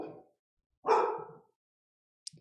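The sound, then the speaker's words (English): Two large dogs bark indoors: a trailing bark at the start, one loud full bark, then a short yip at the end, with silence in between and no talk. “And I will never have my dogs inside next time I do a live stream, because my dogs can't control themselves.”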